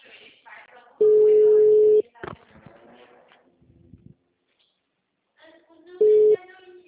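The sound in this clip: A telephone ringback tone heard while placing a call: two steady, mid-pitched beeps, the first about a second long and the second shorter. People talk in between.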